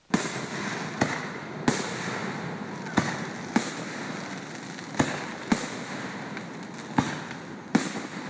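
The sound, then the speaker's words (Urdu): Fireworks at a Fourth of July celebration in a lakeside park in Virginia near Washington: a string of loud, sharp bangs at irregular intervals over a continuous crackling, hissing wash of smaller bursts. “یہ آتش بازی امریکی دارالحکومت Washington کے قریب Virginia کے ایک خوبصورت لیک فیئرفیکس پارک میں کی جا رہی ہے۔”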